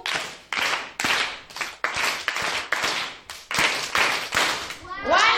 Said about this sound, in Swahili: tuwapongeze waimbaji kwa makofi matatu